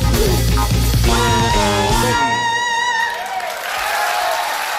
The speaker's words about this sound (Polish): Oklaski i brawa.